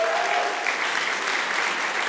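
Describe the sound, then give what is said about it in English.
Applause from a church audience honoring two members during a morning service, a dense, steady clapping that stays loud and even across the whole moment. “Want to publicly honor Roy and Sandra here this morning. Round of applause for Roy and Sandra.”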